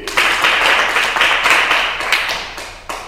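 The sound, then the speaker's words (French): An audience applauds a student's answer in a group Bible lesson: a dense round of many hands clapping that gradually thins and fades toward the end. “Acclamation pour lui!”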